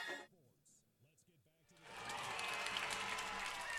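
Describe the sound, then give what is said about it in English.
After a voice speaks briefly, football fans at Yale Park roar and applaud just after the national anthem before the Armada vs Yale high school kickoff, a sudden, loud, sustained crowd cheer. “You can hear the cheer of the fans in the background.”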